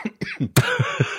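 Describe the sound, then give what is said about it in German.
A person coughs in a few short, harsh bursts, close together, followed by rough, throaty rasping. “diesen Huster können Sie sich rausschneiden und Ihrem Arzt vorspielen oder Ihrem Apotheker.”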